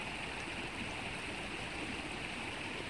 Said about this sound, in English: emotions swirling around you like a raging river, you may also notice the sound of the water.